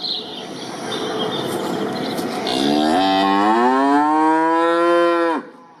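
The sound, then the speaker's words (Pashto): A large hornless farm cow lows on a cattle farm in Lashkar Gah. After a stretch of rustling background noise, one long, loud, harmonic moo swells and holds steady, then cuts off abruptly. “دا غواوې د عادي کلیوالو غو سره فرق لري، شکرونه نه لري. تر کلیوالو غواو غټي دي”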